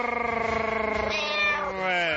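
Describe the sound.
A cat meows in one long, drawn-out call with a bright, wavering pitch that bends upward midway, fairly loud and heard on its own.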